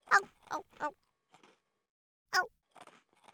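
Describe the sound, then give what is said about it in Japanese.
Hard-baked rice cracker crunching as it is bitten with a canine tooth: three loud, crisp bites in quick succession, a pause with faint chewing, then one more sharp crunch and softer chewing crackles. “あーん、うまい。八重歯で噛むかた焼きせんべいは最高だ。”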